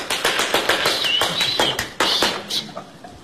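An audience applauds at the final of a 1950 ballroom dancing championship, making a dense run of sharp, uneven hand claps that stays loud and then thins out toward the end.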